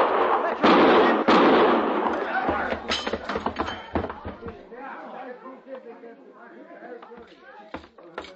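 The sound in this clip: Gunshots ring out in a Gunsmoke radio western drama. A few loud, sharp bangs come early and decay quickly, then tense men's voices talk.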